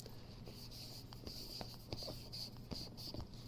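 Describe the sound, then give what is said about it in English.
Writing on a board gives faint, short, scratchy strokes in a quick, uneven rhythm over a steady low hum. “I'll write it up there.”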